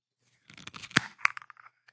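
A True Fruits smoothie bottle of blackberry, blueberry, blackcurrant, raspberry, orange, banana and apple being twisted open: a quiet flurry of small crackling clicks with two sharper snaps in the middle, heard alone.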